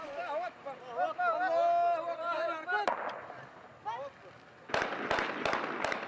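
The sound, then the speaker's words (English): Gunshots fired into the air by armed fighters celebrating the takeover of a city in northern Mali: one sharp crack, then a rapid cluster of several more, over loud shouting and chanting voices. “They fire shots into the air to celebrate their takeover of the city.”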